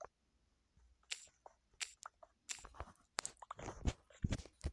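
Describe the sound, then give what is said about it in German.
Chewing and crunching from eating chicken in the video game Minecraft: a quick series of crisp, clicky munching bites, faint at first and growing louder and denser toward the end. “Ein Chicken essen.”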